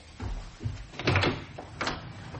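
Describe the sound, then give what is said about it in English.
A house's front door being opened, a few soft clunks and rattles of the latch and door at low level, with no talk. “Would you get the front door?”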